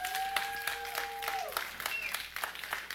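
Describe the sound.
Church audience applauding to welcome a new member, faint scattered clapping with a few sharper claps standing out, and a sustained tone held near the start.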